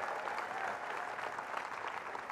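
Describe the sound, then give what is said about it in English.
Audience applause fills the room at a company gathering, a dense, steady wash of clapping hands that holds at an even level from start to finish with no voices standing out. “Give yourselves a round of applause who are participating.”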